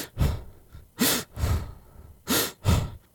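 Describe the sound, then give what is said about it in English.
A nervous man breathes heavily through his mouth, taking five loud, rough, gasping breaths in an uneven rhythm with brief pauses between them. There is no speech. “stands there awkwardly, and breathes heavily through his mouth”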